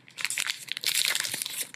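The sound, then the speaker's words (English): A candy bar wrapper for a dark chocolate and coconut bar crinkles and crackles in many quick, dense bursts, fairly soft and with no talking. “You hear that crinkle, listeners?”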